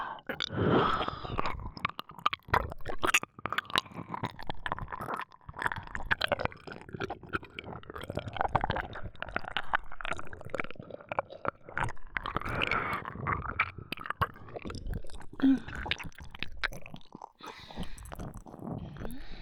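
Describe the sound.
Wet mouth sounds of nibbling and eating at an ear: a steady stream of soft smacks, squishy clicks and chewing noises that run the whole way through without pause or talk.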